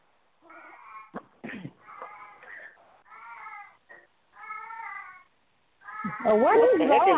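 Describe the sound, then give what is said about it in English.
A 17-year-old male cat meows in a series of drawn-out, wavering calls with brief pauses between them, the last call louder and rougher than the rest. “What is that? That's my cat.”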